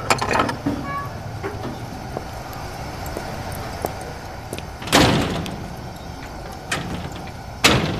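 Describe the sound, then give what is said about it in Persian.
A door being shut, with two loud, sharp bangs standing out over a low rumbling background, plus a few softer knocks and clicks. “درو چرا میبندید؟”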